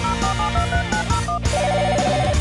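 A telephone rings with a repeating pattern of bright electronic tones, loud and steady throughout, with no voices.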